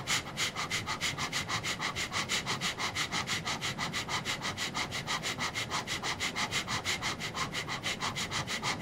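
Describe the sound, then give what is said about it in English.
Rapid, rhythmic breathing in a morning meditation breathing exercise: many quick, forceful sniff-like pulses at a steady fast rate. The pulses continue evenly throughout with no talk. “focusing on the exhalation, the in breath will happen on its own.”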